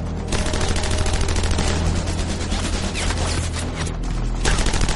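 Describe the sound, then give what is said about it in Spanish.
Rifle and machine gun fire from German troops at the southern edge of a forest in battle: a loud, dense, continuous clatter of overlapping shots and bursts, with no talk. “Los alemanes abren fuego también con rifles y ametralladoras.”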